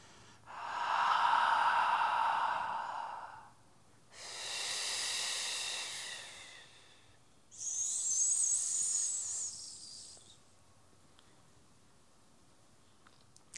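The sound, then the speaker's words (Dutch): Slow, deep breaths taken during a guided relaxation exercise: three long, airy breath sounds of about three seconds each, separated by short quiet pauses. The last breath has a higher, hissier tone, and no one talks. “dan laat je de adem opkomen en je ontspant het hele onderlichaam, alles wat je hebt gebruikt, ontspan je. Dan komt de adem vanzelf binnen”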